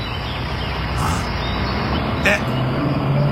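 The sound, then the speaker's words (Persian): An approaching truck gives a steady, loud low engine rumble that holds throughout, with a couple of brief higher sounds above it. “سوپو سوپو نگاه کن، یه کامیون داره میاد.”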